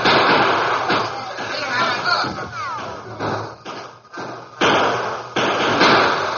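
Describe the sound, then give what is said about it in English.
Gunfire in a Western shootout between lawmen and masked outlaws among boulders, an old radio drama effect: several sharp cracks and dull thuds at irregular intervals, muffled and narrow in tone. “caught in the crossfire from the lawman's guns and those of the Lone Ranger”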